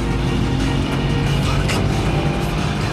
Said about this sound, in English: The Subaru pursues aggressively, swerving in an attempt to overtake the BMW in the narrow street.